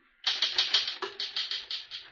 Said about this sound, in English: Finish typing it, and I'll sign it.